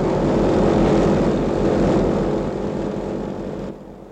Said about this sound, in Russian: Самолет на старт! Есть самолет на старт! Я вылетаю!